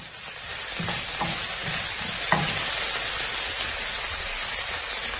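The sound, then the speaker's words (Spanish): Unpeeled garlic cloves frying in oil in a casserole: a steady, hissing sizzle throughout, with a few faint clicks and taps rising briefly above it. “Y en esa misma cazuela, con el mismo aceite, se ponen los ajos sin pelar y se fríen.”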